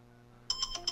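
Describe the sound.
Telephone ringtone sounding for an incoming call: after a half-second of quiet, a few short, high electronic ringing pulses repeat in a steady rhythm, moderately loud.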